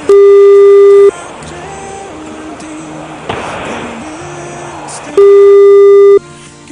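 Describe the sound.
Telephone call ringing on the line: two long steady ringback tones, about four seconds apart, with quieter muffled sound between them.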